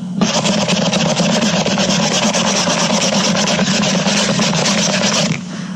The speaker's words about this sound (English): Now I've got my new bottle in one hand and a clean rag in my other hand. I'm going to rub it until it looks new again.